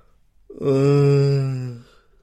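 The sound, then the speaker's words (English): A drawn-out voiced yawn, heard alone: one long, steady, low moan lasting over a second, rising in quickly and then fading away. “Oh, how can I strain my neck yawning? Really, that's ridiculous.”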